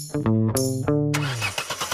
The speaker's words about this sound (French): Allez, démarre ! Elle a pris froid, j'ai l'impression.